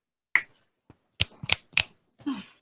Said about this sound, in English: When I snap my fingers, you will wake up feeling like the great new person you are.